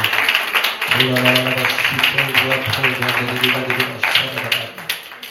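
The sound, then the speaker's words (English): A church audience claps its hands in steady rhythm over sustained musical tones, with voices mixed in. “Can you give the Lord a hand clap for them today?”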